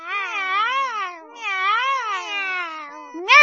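Cats meowing at feeding time, heard as two long, loud, wavering meows in sequence, with a third sharp meow beginning at the very end.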